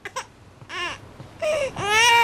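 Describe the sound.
A baby cries in a few short wailing bursts. Each burst is louder and longer than the one before, and the last one is a sustained, strained wail.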